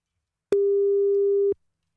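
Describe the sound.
Telephone ringing tone while a call is placed: one clean, steady mid-pitched tone lasting about a second, starting and stopping sharply, with silence on either side and no talk.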